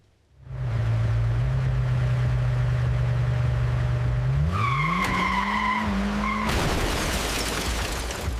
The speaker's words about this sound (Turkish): Arka tekerlek dönerken o da gözünü bir an olsun ekrandan ayıramadı. Hareket eden araç duvarı yerle bir etti.